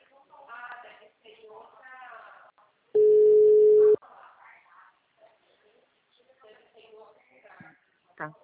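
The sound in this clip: A steady telephone tone follows a dropped phone call. The single loud, level tone lasts about one second and sits between stretches of conversation.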